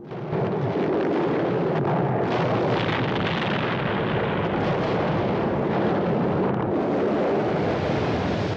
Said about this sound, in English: The remains of the space station continue to break up until they're suddenly engulfed in a mighty explosion.